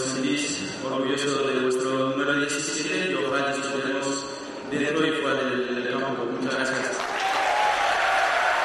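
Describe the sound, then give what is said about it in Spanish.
Stadium crowd applause at a football club's player presentation: a steady, dense wash of clapping and crowd noise that lasts throughout, with a person talking over it. “al final hay que decir que más aplausos que pitos para Griezmann”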